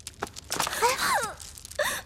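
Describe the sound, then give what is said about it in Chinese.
A woman cries, upset, in wavering sobbing wails broken by gasping breaths. The sobs are moderately loud and uneven. “公主，公主，公主，别生气了啊，别哭了，公主您别哭了好吗？”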